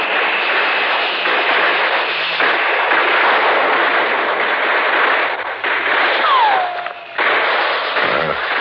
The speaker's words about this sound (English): Those are real bullets they're shooting at us over there.